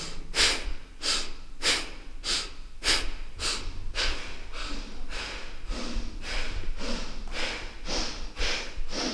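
Sharp, forceful exhales from a breathing exercise, with the belly fully relaxed on the inhale and the navel driven toward the spine on each exhale. Many evenly spaced breathy puffs follow in a steady, quick rhythm, with no talking.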